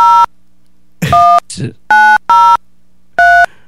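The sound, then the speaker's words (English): Telephone dialing tones as a number is dialed on a computer: five clear, steady beeps in an uneven rhythm, with a brief soft noise between the second and third. “Okay, I'm just going to dial the number.”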